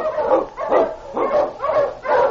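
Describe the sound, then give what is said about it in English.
A husky Eskimo sled lead dog barks on a trail through storm and snow, giving five loud, evenly spaced barks with a strong harmonic tone and short pauses between them, with no other sound. “The Wonder Dog King, swiftest and strongest of Eskimo lead dogs, blazes the trail through storm and snow for Sergeant Preston as he meets the Challenge of the Yukon.”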